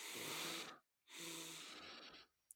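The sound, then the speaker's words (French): Double-inhalation breathing exercise: two long, airy breaths separated by a short silent pause, the second slightly longer, followed by a tiny puff at the very end. “Double inspiration. Expire. Double inspiration.”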